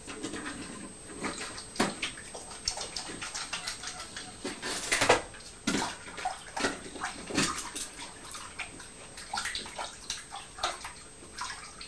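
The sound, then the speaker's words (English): Tap water runs steadily while hands are washed beneath it, a continuous splashing rush broken by irregular louder splashes and gurgles. “I'm just going to wash my hands”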